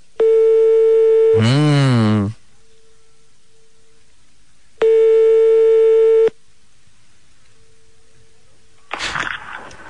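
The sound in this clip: Telephone line tone on a call to a hotel: two long, steady beeps separated by a few seconds of near silence, then a short, rough noisy burst at the end.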